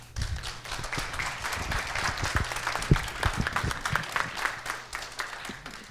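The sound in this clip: An audience applauds to welcome a guest speaker. Dense, fairly loud clapping keeps a steady level, then thins and fades toward the end.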